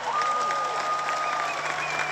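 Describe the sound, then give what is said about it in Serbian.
Audience applause for two young musicians joining a tribute concert on stage. Dense, even clapping holds steady throughout, with a thin, high whistling tone running through it and no talk. “Molim vas veliki aplauz za Luku i Zorana iz grupe Butch Cassidy.”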